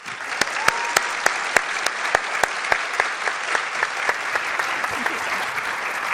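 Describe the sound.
Audience applause greets a leadership speaker, a steady, full round of clapping that continues throughout. Sharp individual claps stand out at fairly regular intervals above the dense crowd sound.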